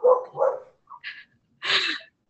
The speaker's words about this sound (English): you might even hear my little puppy. She's sleeping and making little yipping noises.